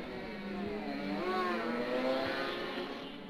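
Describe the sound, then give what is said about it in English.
A pair of racing motorcycles roaring away side by side at a road race start, one lifting into a wheelie, their engine whine swelling and shifting in pitch as a sustained buzzing drone. “Listen to these go. And it's a wheelie from Mick, as usual.”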